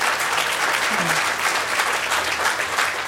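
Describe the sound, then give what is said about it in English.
Audience applause fills the whole clip, a thick, unbroken wash of many hands clapping at a steady, fairly loud level. “yeah, you're clapping”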